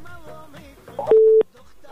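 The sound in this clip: A telephone busy tone as a call disconnects: one short, steady, mid-pitched beep, louder than the brief stretch of speech-like sound just before it, then quiet.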